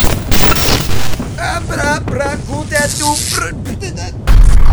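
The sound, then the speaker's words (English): Explosion of an ED 205 robot after it falls down two stairs in a RoboCop video game: loud, noisy bursts at the start and again right at the end, with game voices and sounds in between. “Holy shit, he just exploded! Holy fuck. He just fell down literally two stairs and exploded. Apparently robots can't do stairs”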